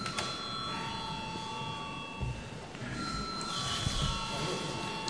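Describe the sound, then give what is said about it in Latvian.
An electric bell rings in a parliament chamber to call members to a vote. The ringing is loud, continuous and metallic, holding steady across the whole clip with a broad rattling texture and no pause. “lūdzu zvanu.”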